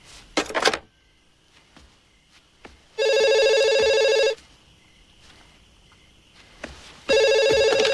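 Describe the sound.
A telephone rings as a caller calls back: two loud electronic ring bursts with a quiet gap between them. A short clatter comes first, then faint soft knocks.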